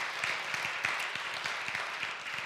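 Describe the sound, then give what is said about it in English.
Faint applause from a small audience, with individual claps standing out over a soft, steady bed of clapping that lasts the whole clip, quiet throughout. “we can clap that up. Come on.”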